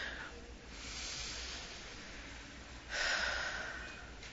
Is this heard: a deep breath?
yes